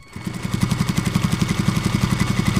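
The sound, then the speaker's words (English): Sewing machines run in a clothing workshop in National City, a fast, steady mechanical chatter of many even pulses over a low motor hum that holds a constant pace throughout. “KPBS reporter Elena Alfaro joined Ortega among the sewing machines at Norma's Apparel in National City, where his concepts become reality.”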